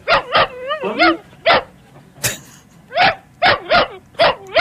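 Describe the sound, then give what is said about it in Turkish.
A dog whining with many short, high-pitched yips and whimpers, some wavering in pitch, coming in uneven bursts separated by brief pauses. “Köpek ağlıyor.”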